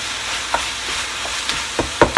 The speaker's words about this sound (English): we've used a tiny bit of butter to brown off the onions